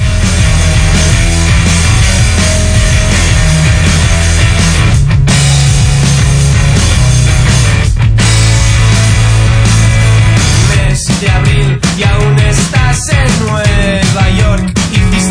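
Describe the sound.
Music by a Catalan band plays loud and dense throughout, a full band mix with steady rhythm and no break in sound.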